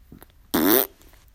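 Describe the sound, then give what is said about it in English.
A single short, buzzy fart with a low, wavering pitch, loud against near silence. “Give me 1 second, I'm gonna freaking fart.”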